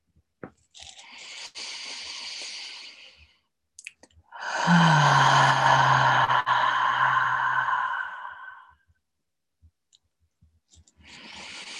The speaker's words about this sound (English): And we'll take 3 deep breaths together. Exhaling with a bit of sound to anchor and ground our practice.